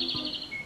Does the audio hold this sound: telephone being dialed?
no